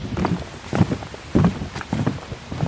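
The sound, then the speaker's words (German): Footsteps on a wooden floor: about five evenly spaced steps land as dull, low thuds, each clearly separate, with no talk. “denke die ganze Zeit an diesen Holzboden, auf dem wir gerade rumlaufen und wie schön er sich anhört. Willst du nicht mal das Mikrofon dahin halten kurz?”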